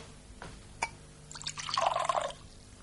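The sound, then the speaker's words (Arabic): Wine is poured for a guest, starting with a few faint, brief drips. A short splashing pour follows for about a second, bright and trickling but quiet overall, with no voices. “يا غلام، صب له النبيذ صبا.”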